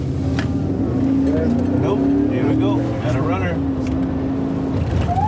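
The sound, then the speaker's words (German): Engine of a border police patrol car in El Paso, Texas, as the driver accelerates, a steady low hum continuing throughout under a man's voice speaking. “gibt Gas und schaltet kurz das Blaulicht ein.”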